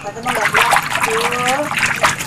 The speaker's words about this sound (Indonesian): Terus airnya ngisinya gimana? Tuh pakai selang.